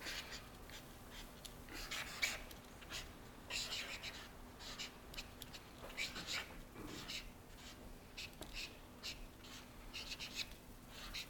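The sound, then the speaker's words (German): Writing on a board gives faint, scratchy strokes in irregular bursts over a steady low hum. “Und ich schreibe das jetzt mal kurz da hinten, ne?”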